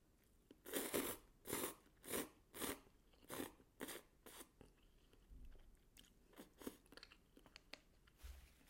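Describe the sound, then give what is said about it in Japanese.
Crunching and chewing while eating cup noodles: a steady run of about seven loud, crisp bites, followed by fainter, sparser crunches and chews. No talk. “今の食べるタイミングは合ってたかな”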